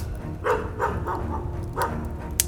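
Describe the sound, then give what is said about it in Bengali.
Dogs at a cremation ground let out a few short, faint yelping cries in quick succession over a low, rumbling background. “কানে ভেসে আসছে কেবল পোড়া কাঠ ভাঙার আওয়াজ আর কিছু শ্মশান কুকুরের আর্তনাদ”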